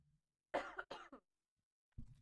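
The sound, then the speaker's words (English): Short dry coughs from someone with spring allergies: a quick cluster of sharp bursts, then one more after a brief silent pause, with no talk around them. “Excuse me one second, I need to cough really quickly.”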